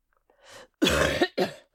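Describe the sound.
A person coughing: a soft throaty lead-in, then a harsh, loud cough burst and a shorter second burst close after it.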